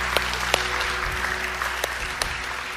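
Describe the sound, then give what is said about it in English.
A church audience applauds to welcome new believers into the faith during a morning service, producing an even wash of clapping with a few sharper claps standing out. “Can we put our hands together and welcome people into God's family this morning?”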